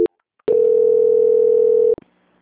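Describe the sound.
A telephone call transfer tone: a short click, then a single steady mid-pitched electronic tone lasting about one and a half seconds that cuts off abruptly. It sounds alone, with no talking.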